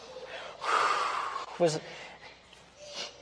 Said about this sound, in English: All right, you can let your breath go.